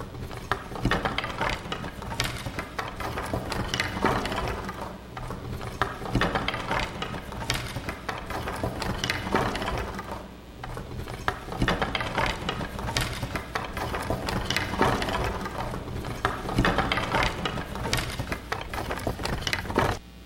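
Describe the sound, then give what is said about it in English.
Rattling of dry bones clattering together as a sound effect: a dense, continuous stream of hard wooden clacks and rattles that swells and eases a few times, with no voices. “as I prophesied, there was a noise and suddenly a rattling, and the bones came together, bone to bone.”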